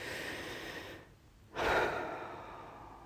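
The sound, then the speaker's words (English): A long, deep breath during a guided relaxation exercise. A quiet lull gives way to a soft, breathy exhale that swells and then slowly fades, with no talking. “So let's take another long, deep breath.”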